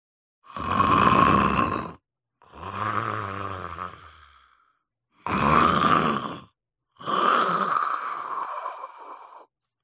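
Snoring of a sleeping wolf that has just eaten its fill, four long, loud, rasping breaths separated by brief pauses, with no talk over them.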